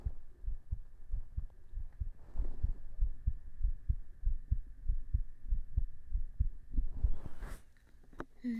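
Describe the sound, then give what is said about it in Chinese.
A heartbeat listened to up close: rapid, steady low thumps repeat many times throughout, with a faint constant hum underneath. “不要动，我要听一下你的心跳，来判断你是否很紧张。”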